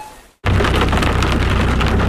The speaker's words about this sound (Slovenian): Vam je tuča poškodovala avto?